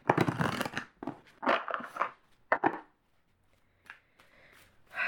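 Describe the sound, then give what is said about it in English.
Oracle cards being shuffled by hand: a few rough, papery bursts of riffling and sliding in quick succession, then a quiet pause broken by faint taps. “I'm going to get some of these oracle cards.”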